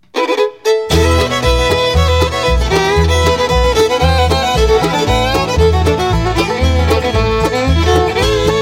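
A traditional bluegrass band plays with bass, mandolin, fiddle, banjo and guitar. After a brief opening moment, a steady, loud, bouncing bass rhythm runs under bright plucked and bowed melody lines.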